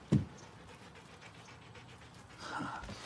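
A dog lying at someone's feet pants softly and steadily in quick, breathy puffs, with a faint sniff or whimper near the start.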